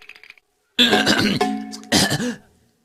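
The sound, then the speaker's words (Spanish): A raspy, voiced throat clearing in two rough, gravelly bursts, the first longer and trailing off before a shorter second one, loud against an otherwise quiet background. “Solo me aclaraba la garganta.”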